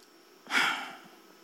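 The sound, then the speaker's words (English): A man imitates a deep breath out: a single breathy whoosh that swells quickly and fades over about half a second, faint and alone. “he would take a deep breath, and then he would breathe out. He'd just go,”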